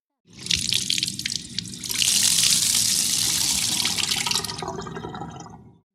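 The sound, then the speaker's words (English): Water runs steadily while potatoes are washed, a continuous splashing hiss lasting several seconds that swells slightly partway through and then trails off, heard alone. “We can make french fries with them. We wash them.”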